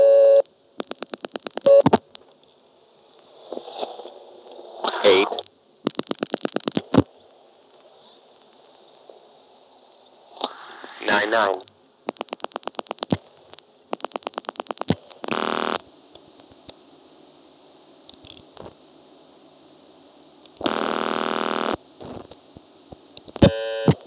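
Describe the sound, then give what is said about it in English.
An old telephone pulse-dials the digit 8. Several trains of rapid clicks are separated by quiet gaps, with buzzy tone bursts in between, mostly faint against silence. “That was me dialing 7 again while the operator still was holding it. Dialing 8.”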